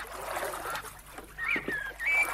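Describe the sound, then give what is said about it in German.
Ducks on a lake beside reeds and a jetty in Mecklenburg give a few faint honking calls over a steady wash of outdoor noise. “Der See, der Steg, das Schilf. Die Enten. Na klar, die auch.”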